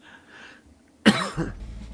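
A harsh cough bursts out sharply and loudly, trailed by a smaller second burst, after a stretch of quiet, low background noise.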